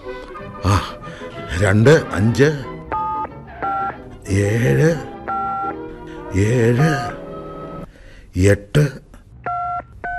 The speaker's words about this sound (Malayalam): എല്ലാരെയും വിളിച്ചൊന്ന് അറിയിക്കട്ടെ. എത്രയാണാവോ ആ മൂത്തവന്റെ നമ്പർ?